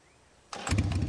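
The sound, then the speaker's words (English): An engine starting abruptly after half a second of near quiet, then running with a low, steady rumble. “Papi revs the engine, and the smell of gasoline hits me as he squeezes the accelerator.”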